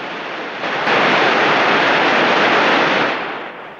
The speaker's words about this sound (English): Foaming white water surges across rocks and through gullies.